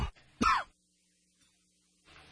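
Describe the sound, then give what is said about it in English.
A man coughs and clears his throat in a morning coughing fit: a brief cough, then a louder, rasping throat-clear, a pause of near silence, and a softer rough clearing at the end. “Great way to start the morning with a coughing fit.”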